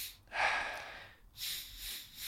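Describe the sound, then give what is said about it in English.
Quick, big breaths in a guided breathing exercise, with the lungs filled almost full. Two long, breathy rushes of air follow each other closely, with no voice over them. “Filling up the lungs with that 3rd breath almost full. So it's not a short breath or a small breath. It's quite a big breath, but quickly.”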